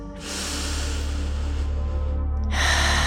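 A long, deep breath is drawn in during a guided meditation, an unbroken airy hiss through the nose that swells slightly louder near its end.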